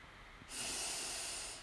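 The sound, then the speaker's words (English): A single long, deep breath is drawn in through the nose during a heart-opening breathing meditation. The soft, airy hiss begins suddenly, holds for about a second and then fades away, quiet and with no other sound. “So we breathe in and use the tone yam. Breathe in.”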